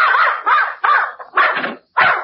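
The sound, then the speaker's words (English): A dog barking: a run of several sharp, high, yappy barks in quick succession with short gaps between them, loud and alone. “I came for Mrs. Pondecker's dog to take him for a walk. Here he is, and he's all yours.”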